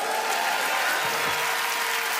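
Audience applause at a concert in St. John's as performers are welcomed on stage, dense steady clapping from a large crowd with a few faint cheers throughout.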